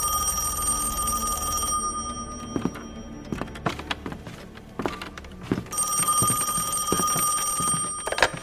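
A telephone bell rings in an office in two long ringing bursts, separated by a stretch of scattered knocks and thunks.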